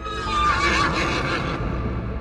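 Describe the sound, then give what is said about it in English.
A horse-like whinny voiced for a unicorn: one loud, sustained neigh with a quavering, wavering pitch, heard alone and fading out toward the end. “The unicorn opened his lips and whinnied.”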